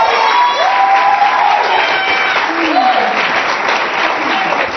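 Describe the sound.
A church audience applauds and acclaims the Lord with loud, sustained clapping. Voices call out and cheer over the clapping in rising and falling shouts.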